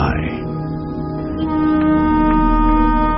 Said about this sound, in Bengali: Train ছাড়ার আওয়াজে মুহূর্তেই হরিপুর স্টেশনের ওভারব্রিজে ফিরে আসে সন্তু।